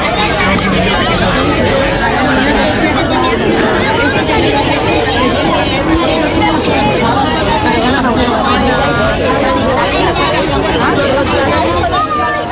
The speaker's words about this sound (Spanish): Esto que ustedes han escuchado es el bullicio de los niños y niñas, de la llegada de esos niños y niñas a los coles, de esos reencuentros que han tenido lugar, las carreras, las mochilas